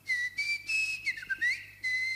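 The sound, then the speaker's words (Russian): A long, drawn-out human whistle: several sustained high tones separated by short breaks, the pitch sliding and wavering in the middle. It is fairly soft and heard alone. “И спустил протяженный свист.”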